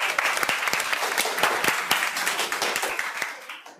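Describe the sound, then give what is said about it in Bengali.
An audience at a guided temple quiz gives a round of applause. Many sharp individual claps stand out within the dense clapping, which keeps a fairly even level before dying away at the very end. “একটা হাততালি সবার জন্য।”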